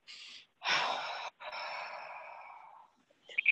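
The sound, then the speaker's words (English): A person takes deep breaths: a short breath, then a strong, rushing inhale and a long exhale that slowly fades, with a few faint clicks at the end. “Take a few deep breaths.”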